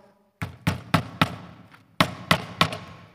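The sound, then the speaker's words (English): Sharp nailing blows drive papers onto an interior house door: seven loud, woody thuds in two bursts, four evenly spaced strikes, a short pause, then three more, each with a quick decay and no talk. “I'm going to nail the 95 Theses to the door of a church. It's our own door. So we're kind of protesting ourselves. It's an interior door, but it's the closest door.”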